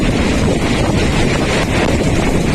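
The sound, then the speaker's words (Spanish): Strong warm wind gust from a heat burst in Murcia, Spain, around Espinardo or Mazarrón, roaring loudly and steadily across the microphone with continuous buffeting and no voices. “Reventones como el que estaban escuchando en la zona de Espinardo en Murcia o en Mazarrón.”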